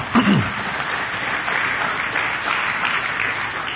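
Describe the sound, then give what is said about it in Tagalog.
A church audience applauds the Lord during a sermon with a steady, even wash of clapping that holds at a constant level throughout. “Pwede mong palakpakan natin ang Panginoon.”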